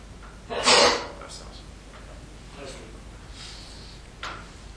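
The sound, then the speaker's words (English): A single sharp sneeze bursts out loudly near the start, then fades into a low, steady hum of room noise with a few faint, brief sounds afterward. “It must be true if somebody sneezed.”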